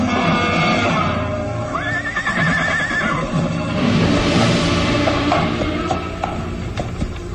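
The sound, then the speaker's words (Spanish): A horse gives one drawn-out, wavering whinny as it is reined to a stop, over a background of steady noise, with a few light hoof clops following afterward. “tira de las riendas del caballo, ordenándole detenerse”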